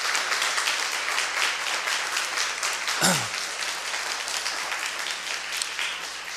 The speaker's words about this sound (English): But could you maybe rise and show us who you are, and then we can welcome you? So let's welcome the Bruderhof community.